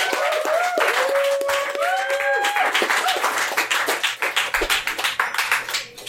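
Applause from a live audience greets a designer walking onstage: thick clapping with several shrill whistles rising and sliding early on, then thinning into scattered individual claps that fade toward the end.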